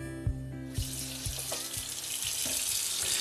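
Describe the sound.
Sloe berries are washed under a running tap. A few light knocks come first, then a steady rush of water begins and keeps going, rising slightly as it continues.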